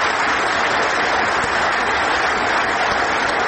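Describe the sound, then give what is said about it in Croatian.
Ovation from ruling-majority members of the Serbian parliament after Vučić's speech, a loud, dense roar of many hands clapping that holds steady and even without a break. “Vučićevo izlaganje ispraćeno je ovacijama i višeminutnim aplauzima poslanika vladajuće većine predvođene njegovom Srpskom naprednom strankom.”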